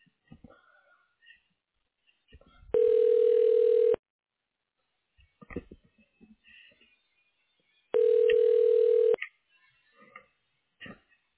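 During a call transfer to an extension, two steady, buzzy ringback tones sound on the telephone line, each about a second long and about four seconds apart, with faint clicks and murmurs between.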